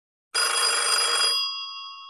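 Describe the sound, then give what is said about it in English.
A home telephone rings: one bright, jangling ring bursts in abruptly, holds for about a second, then thins into a fading, higher ringing tail. No voices. “And the phone rang.”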